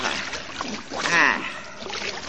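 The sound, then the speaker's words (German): Splashing water effect from an Asterix and Obelix audio drama as the two tumble down and land in water, a churning, sloshing wash that swells in the middle and then settles. “Asterix und Obelix sausen sich überschlagen zu Tal und landen. Was? Sind wir immer noch im Wasser?”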